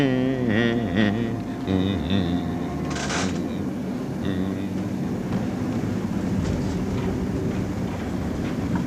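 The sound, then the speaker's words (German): A city tram approaching on a street: tonal wavering sounds early on, a sharp hissing burst partway through, then a steady rolling rail rumble that continues to the end. “Sieh doch mal, du, da kommt noch eine Straßenbahn.”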